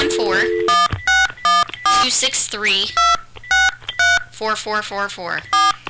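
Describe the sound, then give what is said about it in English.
Touch-tone telephone dialing, a series of short, bright keypad beeps spaced irregularly, with voices talking loudly between and over the tones. “Now I need some dialing music here.”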